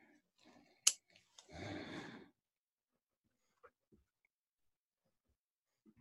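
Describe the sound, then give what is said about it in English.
A pen scribbling notes on paper: a sharp click, then a rough scratching burst of under a second. Near silence follows, broken by a few faint ticks. “Sorry, folks, we're writing and scribbling notes here.”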